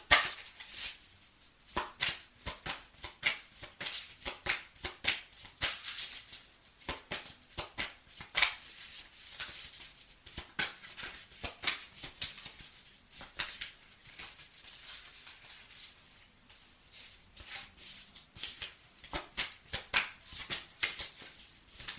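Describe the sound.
Playing cards are shuffled and drawn, with many quick, crisp rustles and slaps in irregular bursts that continue steadily with no voices.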